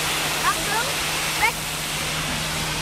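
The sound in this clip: Water gushing from a large fire-brigade hose, a loud, steady rush that runs the whole time, with faint high voices cutting through briefly.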